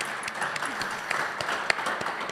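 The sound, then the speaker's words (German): An audience applauds, a dense patter of clapping hands with a few sharper individual claps standing out. The applause holds at an even, moderate level throughout. “Applaus für Martin.”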